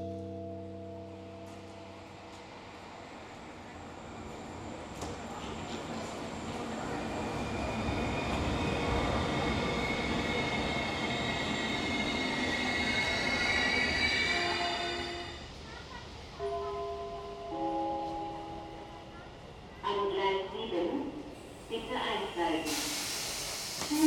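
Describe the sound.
A train runs on rails with a long, hissing rumble that slowly swells and then eases. Steady tones sound at the start and a few sharper knocks come near the end.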